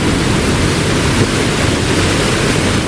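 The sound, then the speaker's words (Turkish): Water rushes through the opened floodgates of a large dam on the Euphrates River, released after heavy rains. It makes a loud, dense, unbroken roar that holds steady throughout with no pauses. “Devlet Su İşleri ekipleri hazır olun dedi. Kollar çevrildi ve kapaklar havaya kalktı. Fırat Nehri'nde adeta görsel şölen yaşandı.”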